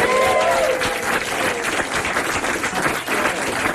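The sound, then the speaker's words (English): Studio audience cheers and applauds on request so the engineers can set a sound level. The clapping and joyful noise are loud and continuous from start to finish, with no break. “Let me see if we can get a test level from our audience right now for the engineers. Can you guys make some joyful noise right now?”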